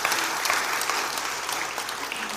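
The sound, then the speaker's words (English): An audience breaks into applause after a song, a steady, dense roar of clapping that holds evenly for a couple of seconds. “thank you for the applause. That's nice.”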